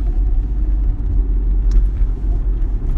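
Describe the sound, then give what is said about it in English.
Steady low rumble of a car being driven in the morning, a constant engine and road drone with no distinct events. “It's Tuesday morning driving.”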